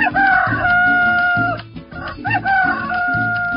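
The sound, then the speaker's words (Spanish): A rooster crows loudly and alone, two long strained calls following one after the other, each holding a high, rasping pitch before tailing off. “Eso pasa del filo de la medianoche hasta que cantan los gallos.”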